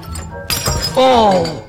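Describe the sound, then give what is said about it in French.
A ceramic cup breaks during dishwashing, one sharp crash with a brief clatter of pieces, followed by a voice exclaiming. “Oh! Bah, v'là que je la casse. Oh, bah, v'là qui casse la tasse.”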